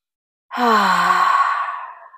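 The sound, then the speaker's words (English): A deep breath exhaled loudly as a voiced sigh during a relaxation exercise, one long breath that starts strong and slowly trails off. “We're going to start with three deep breaths and exhaling loudly like we always do. So here's our first deep breath.”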